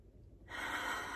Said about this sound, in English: I invite you to take a deep breath and another one. And because it's Easter, let's do one more.